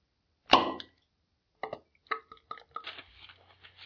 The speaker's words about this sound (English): All right, well, let's crack that open. I'd like to try it. Give it a go. You brought me a bottle, I assume. I did.